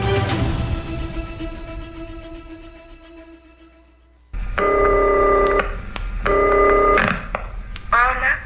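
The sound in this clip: A telephone line rings as a call goes out to a radio listener. After a fading musical sting, two steady ringing bursts with a bright, harmonic tone are heard, followed by a brief rising warble.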